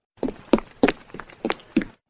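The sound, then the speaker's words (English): Light, quick footsteps of a small child running down a hallway just outside a room, heard as six soft thuds in an even, brisk rhythm with no talking. “We heard tiny feet running down the hall.”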